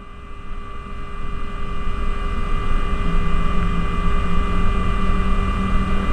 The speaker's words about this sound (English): Number 2 HP cock ground start. And you have fuel flow. RPM and TGT rising. Oil pressure rising.